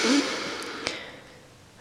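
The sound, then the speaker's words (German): A deep breath is drawn in during a guided relaxation exercise: a soft, airy rush of breath that is strongest at the start and fades away over about a second, quiet and alone. “Du kannst auch dafür die Atmung benutzen, nochmal tief einatmen.”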